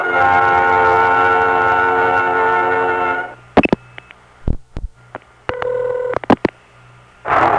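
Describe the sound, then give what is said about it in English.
A telephone number being dialed: a steady buzzing line tone holds for about three seconds, then gives way to clicks and a few short keypad beeps, with a loud tone returning at the end. “You've dialed the last listing in the Los Angeles telephone directory.”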